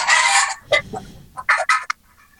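Chicken clucking played by a novelty car horn: a loud burst of squawking clucks, then a few shorter, sharp clucks separated by brief gaps.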